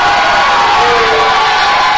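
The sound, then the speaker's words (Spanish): A church audience shouts and cheers in a loud, unbroken roar of many voices blended together, holding steady throughout. “Si el pelotero se merece que le griten, Cristo se merece nuestros gritos más que un pelotero.”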